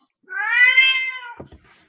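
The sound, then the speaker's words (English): A cat's long, loud meow with a strained, suffering quality. The pitch arches gently over about a second, and a few faint, brief scuffling noises follow. “Suddenly I have a cat. Who at times sounds like she's suffering intensely.”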